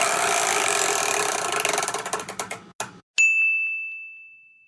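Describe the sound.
A spinning wheel rattles with rapid clicks that gradually slow and spread apart, then a single bright ding rings out and fades slowly.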